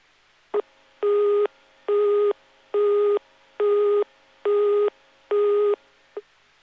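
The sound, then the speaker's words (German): A telephone busy tone signals a busy subscriber line on a German telephone network, sounding as six evenly spaced, steady mid-pitched beeps with brief clipped fragments at the start and end. “Ist die gewählte Fernsprechnummer nicht erreichbar, weil der zugehörige Anschluss besetzt ist, dann hören Sie den Besetzt-Ton für besetzte Teilnehmerstellen.”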